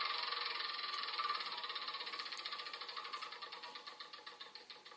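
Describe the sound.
A spinner wheel spins in a Game of Life video game, giving a fast, even stream of ratcheting clicks that gradually slows and thins toward the end, fading as the wheel winds down.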